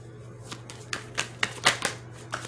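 Tarot cards being shuffled, heard as a few sharp papery flicks and snaps spaced irregularly over a low steady hum.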